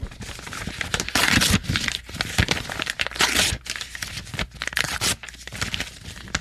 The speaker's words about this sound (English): so if you could make smaller pieces out of the contract. And just really shred it into little tiny pieces.